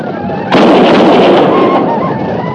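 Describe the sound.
A volley of gunfire in a battle at a frontier fort bursts in as a sudden, loud, dense crackling roar over background noise, holds for about a second, then eases.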